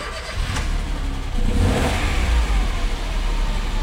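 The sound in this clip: A used Peugeot 108 small car's engine runs in a showroom, a low continuous rumble that swells into a rev partway through and then holds a steady, rough drone.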